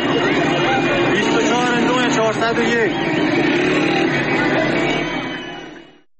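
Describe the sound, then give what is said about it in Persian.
Crowd noise at the entrance to Abadan greets a woman's release on bail: loud, dense voices and shouting with car engine sound mixed in. It stays steady throughout and fades out at the very end. “بشنویم صدای شادی مردم رو با این ویدیو. ورودی شهر آبدان، آزادی بانو شجاع آبدانانی،”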